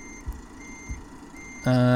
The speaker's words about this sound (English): We've done the driving past it, and now let's do the reversing up to it.